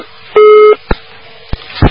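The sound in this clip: A telephone busy tone after a dropped call to a call-in line: one short, steady beep, then a few sharp clicks and small bursts of noise.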